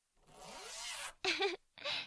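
A clothing zipper is pulled down in a soft rasping zip, followed by two shorter, brighter zips after brief pauses. All three are quiet.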